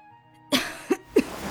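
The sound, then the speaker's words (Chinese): A man coughs three times in quick succession, each a short, rough burst with a harsh, breathy edge, rising out of a faint low hum. “他咳嗽起来”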